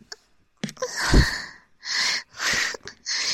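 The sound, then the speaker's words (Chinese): Heavy panting breath comes as a series of loud, rasping, noisy breaths in an uneven rhythm, with short pauses between them. “你能不能不要趴在这儿对着我的裙子喘气啊”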